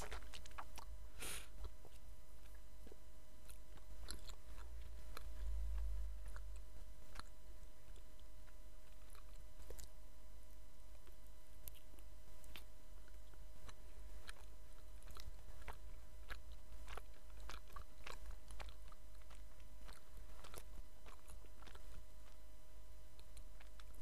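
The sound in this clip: Quiet chewing and biting of mitarashi dango, sweet glazed rice dumplings eaten from a skewer. Soft, moist, sticky mouth sounds repeat many times over a long stretch, with no talking.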